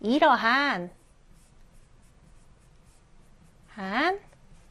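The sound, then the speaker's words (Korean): A pen faintly scratches on paper while writing the Korean letter rieul by hand. The soft, low scraping falls between two short bursts of speech. “자, 그 다음, 리을도 써볼게요.”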